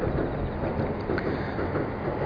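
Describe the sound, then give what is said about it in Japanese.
An electric train crosses an iron railway bridge over a river near its mouth, making a steady, even rumble of wheels and track noise at moderate loudness, with a hissing wash throughout. “今、川を渡る鉄橋を電車が走ってきました。あの電車は、越後線っていう JR の線なんですけどね。”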